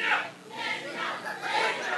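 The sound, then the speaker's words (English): Crowd shouting comes from supporters waiting for Newt Gingrich at a political rally in Sarasota. Their massed voices swell and fade in a few rolling waves at moderate loudness. “At this rally in Sarasota, one of the warm-up speakers asked if the crowd was ready to send President Obama back to Chicago. The crowd had someplace else in mind.”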